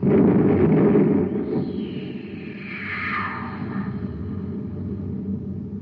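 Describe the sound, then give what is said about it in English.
A cosmic torpedo gun fires a torpedo: a heavy low rumble opens, then a whooshing tone sweeps downward in pitch while the rumble carries on beneath and slowly fades. “Fire the torpedo.”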